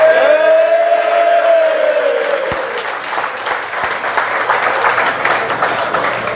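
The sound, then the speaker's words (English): Audience applause and cheering welcome a speaker on stage at a Minnesota United event. Dense, steady clapping fills the whole clip, while a sustained tone fades out over the opening two seconds. “Ladies and gentlemen, please put your hands together. Christian Perslow.”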